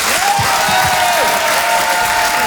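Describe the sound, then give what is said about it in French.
Comedy club audience applauding and cheering as a comedian is introduced: a dense, loud, continuous wash of clapping and crowd noise that holds steady throughout. “Je vous demande de faire un maximum de bruit, s'il vous plaît, mesdames, messieurs, en direct et en live sur Rire et Chanson, voici Fosco”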